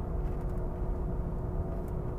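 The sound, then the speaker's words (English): Steady road noise from inside a moving car: a constant low rumble with a broad hiss above it, even in loudness throughout, with no voices. “I also like driving this time of day because there's not a lot of people out”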